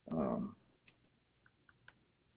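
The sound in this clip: A few faint, sharp computer mouse clicks on a booking website, spaced unevenly and quiet.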